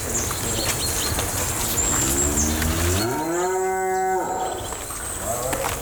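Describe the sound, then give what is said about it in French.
A cow on its way out to the fields lets out one long, low moo that climbs in pitch and then holds steady before cutting off, set against constant outdoor background noise. “Les vaches s'en vont dans les champs.”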